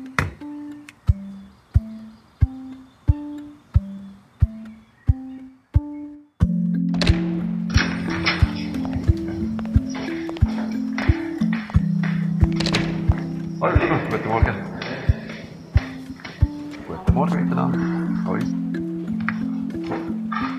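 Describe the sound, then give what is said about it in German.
Plexiglass protective screens being set up at a reception desk: a regular run of hard plastic thunks and clicks, then a person talking while occasional knocks and rattles continue underneath. “Sichtschütze bekommen, zum Plexiglasscheiben, die ich jetzt hier aufstelle bei uns am Empfang.”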